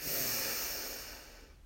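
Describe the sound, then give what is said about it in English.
A single deep breath drawn in during a guided breathing exercise: a long, airy rush, loudest at first and fading steadily toward the end, with no voice over it. “And our third and final breath together, breathe in”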